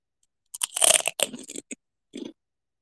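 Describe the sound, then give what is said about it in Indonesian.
Crunching on kerupuk crackers: several crisp, crackly bites close together, then a pause and one shorter crunch, heard alone without talk. “kriuk kriuk apa tuh? Kerupuk.”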